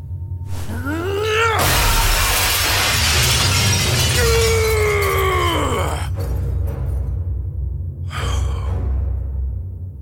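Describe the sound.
A glass mirror shatters onto the floor in a long, loud crash of breaking glass lasting several seconds, with swooping groan-like tones over it and a shorter burst of crashing near the end.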